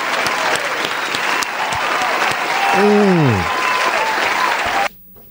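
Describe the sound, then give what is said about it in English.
A crowd gives a hand clap of praise to God: dense, sustained applause that holds steady for about five seconds before cutting off abruptly, with a voice briefly calling out over the clapping midway. “Can we give God a hand clap of praise real quick? Can we just give God a hand clap of”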